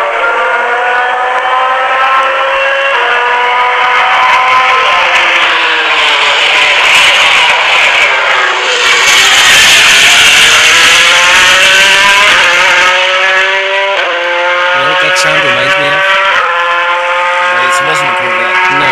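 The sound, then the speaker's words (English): Loud race car engine revving continuously for nearly nineteen seconds, its layered, whining drone sliding up and down in pitch, with a dip and a renewed surge around the middle. “One, it's not a Corvette, but two, remember TIR, Total Immersion Racing? Right. It reminds me of the Panzer, or the Panzer, the Panzer. I don't know how you call that car, but it reminds me of that car's sound.”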